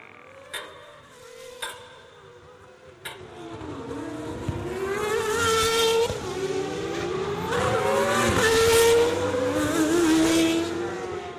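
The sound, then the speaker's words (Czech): Formula 1 race cars scream along the track, their high-pitched engine whine rising and falling as they pass. A few sharp clicks come first, then the sustained, loud engine roar builds. “Předu ve startovním poli se nic převratného neděje, všichni jezdci mají mezi sebou rozestupy větší než vteřinu, ani Ferrari nemá na to, aby útočil na Verstappena.”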